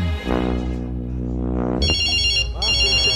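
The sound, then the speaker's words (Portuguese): A telephone rings with a call from home, an electronic ringtone in two bright, high-pitched bursts separated by a brief gap. A voice is heard just before the ringing starts. “Ah, é a mulher ligando lá de casa.”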